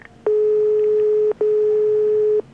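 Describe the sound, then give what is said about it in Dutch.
Two long, steady telephone call tones sound as a call is placed to an office line. Each lasts about a second, with a brief gap between them, loud and even in pitch, with no voices. “Ik doe nog even een paar telefoontjes ondertussen.”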